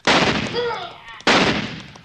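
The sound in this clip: Two sharp rifle shots, each a loud, abrupt blast trailing into a long rumbling decay, the second about a second after the first, with a brief wavering whine between them.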